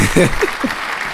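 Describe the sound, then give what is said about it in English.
A round of applause: a steady, dense clatter of clapping with a voice speaking in short bursts over the first half. “It's going to be a lot of round of applause today. It's just one of those days. I have no topic, so we're just going to clap. Clap 90% of the podcast.”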